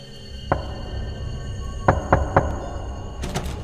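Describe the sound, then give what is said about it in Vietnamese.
Knocking on a wooden door at night: a single knock, a pause, then three quick knocks in a row. The knocks are moderately loud over a low, steady hum, and no voices are heard. “Tiếng gõ cửa cứ vang lên đều đặn, lạnh ngắt như từ một cõi xa xăm nào đó vọng lại.”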